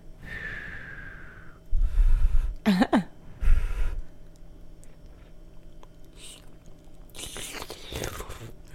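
Hot noodles are blown on with a few breathy puffs, then slurped and chewed in short noisy mouth sounds, with a brief vocal noise in between and quieter gaps.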